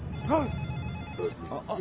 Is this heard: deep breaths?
no